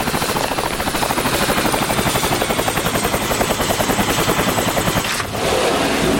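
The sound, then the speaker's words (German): Helicopter rotor chop as the aircraft comes in to land on a plateau: a loud, rapid, even thudding pulse with a thin high whine above it, continuous throughout. “Ich glaube, ich höre einen Helikopter. Tatsächlich, da hinten.”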